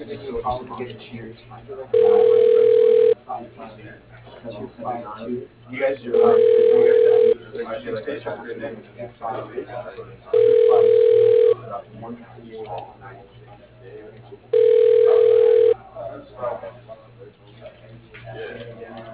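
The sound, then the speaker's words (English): A telephone ringback plays while a call is transferred: four evenly spaced long tones on a narrow phone line, with a voice talking in the gaps between them. “Thank you for calling Ad Creations, and have a great day. Your call is being transferred.”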